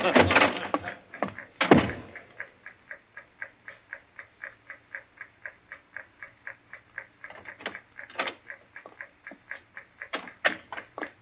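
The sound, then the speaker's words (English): Ticking time fuse of a bomb in a radio drama: a long, steady run of many sharp, evenly spaced ticks, with a voice briefly heard at the start and a few louder knocks later. “They're taking you here as the time fuse for the bomb that's going to blow out this place. It's all set. You won't have long to wait.”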